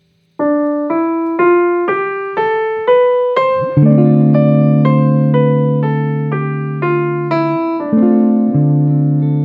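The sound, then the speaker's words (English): A D Dorian scale is played on an instrument, one note at a time. Each note is struck and then decays, and the notes step upward in pitch. A sustained low note joins partway through. “But it sounds like this.”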